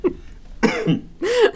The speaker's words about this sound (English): He's coughing. Okay, he's coughing.